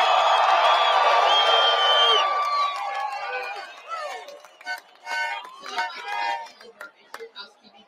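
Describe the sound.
Crowd noise at a 2020 presidential campaign rally in Washington, D.C.: a loud, dense roar of cheering and shouting that gradually fades into scattered whoops, chatter and voices.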